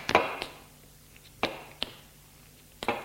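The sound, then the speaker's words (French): Knocks on a door: a few sharp, separate raps spaced irregularly over about three seconds. They stand out clearly against a quiet, low background hum. “Le chauffeur frappe à une porte et l'ouvre.”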